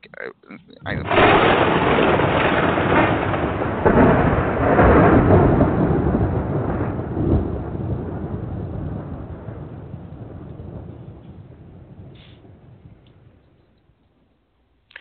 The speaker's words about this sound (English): Oh, here comes the thunder drunder.